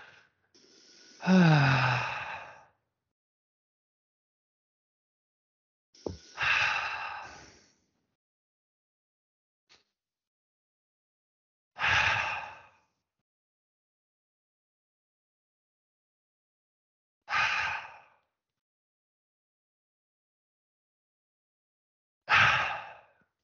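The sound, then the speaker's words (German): Five deep breaths, made deliberately loud during a guided breathing exercise, each a single airy rush of air separated by about five seconds of silence. “Ich habe extra laut geatmet, damit man es hört.”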